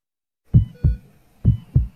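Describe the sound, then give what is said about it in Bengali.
A baby's heartbeat thumps through a health check: four low, dull beats fall in two quick lub-dub pairs, each a short, soft-edged pulse separated by silence. “হার্টবিটটা ঠিক আছে তো?”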